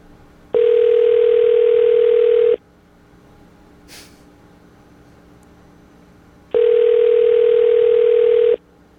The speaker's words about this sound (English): Somebody left this phone on a hot plate. It's melting.